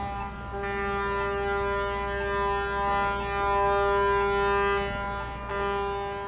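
Warning horn sounding at a high-rise construction site before rock blasting: one long, steady, harmonic horn blast that holds a constant pitch throughout, loud and continuous, with a brief dip near the end.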